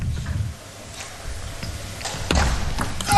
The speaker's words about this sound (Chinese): 看看这个发球